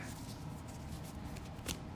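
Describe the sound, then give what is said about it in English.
Quiet rapid riffling and rustling as a tarot deck is shuffled and split by hand, with a sharper snap of cards near the end. “kind of held the cards and let them kind of split where they wanted to split and took that card, split, took that card, that sort of thing.”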